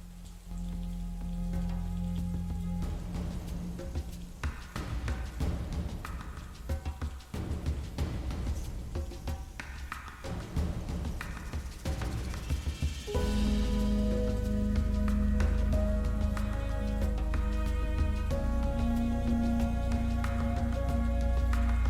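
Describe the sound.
Steady rain falls as a dense, continuous hiss under dramatic music in a spoken drama, growing fuller and louder about midway through.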